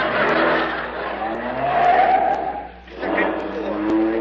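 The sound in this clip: A car engine roars with squealing tires as a Chrysler Town and Country drives up a parking garage ramp. The noise is loud and continuous, dips briefly near the end, then picks up again.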